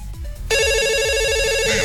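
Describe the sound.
A telephone rings for a call-in to a radio show: a steady, bright electronic ring that starts suddenly partway through and holds evenly to the end.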